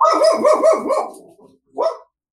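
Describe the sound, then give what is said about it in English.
A dog barks loudly in a quick run of several tonal, yelping barks, falls quiet briefly, then lets out one more bark with no voices. “was that a real dog or was that the ghost dog? That was the dogs. That was the dog.”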